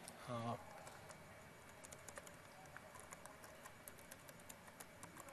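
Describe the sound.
Quiet keystrokes on a computer keyboard as PowerShell commands are entered: many soft, uneven clicks in a steady patter, with a brief voice near the start.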